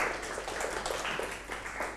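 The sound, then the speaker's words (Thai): Students clapping in a classroom for a classmate who has just answered the teacher's question about metamorphic rock. The clapping is dense, steady and fairly faint throughout. “ยอดเยี่ยมมากครับปรบมือให้เพื่อนหน่อยครับ”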